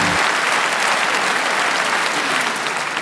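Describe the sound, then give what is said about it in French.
Audience applause welcoming a comedian onto the stage at the Montreux Comédie: dense, steady clapping that begins abruptly and stays loud and even for about three seconds. “Préparez-vous maintenant à accueillir notre prochaine artiste et faites du bruit où que vous soyez pour Élodie Pou.”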